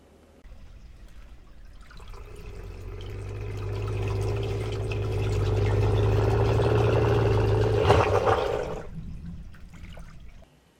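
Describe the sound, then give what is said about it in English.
An underwater vocalization from Sprouts, a male harbor seal, recorded in 2009: a low, rumbling roar that swells gradually over several seconds, holds at its peak, then cuts off abruptly. “Underwater vocalization produced by Sprouts, the male harbor seal, in 2009. This sound corresponds with figure 1B.”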